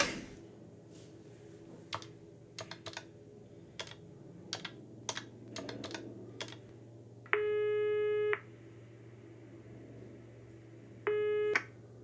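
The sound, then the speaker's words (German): A telephone call being dialled: many quick, sharp clicks of keys being pressed, then a steady electronic line tone sounds twice, the first longer than the second, over a low hum. “Ich muss wohl doch die Benziger anrufen.”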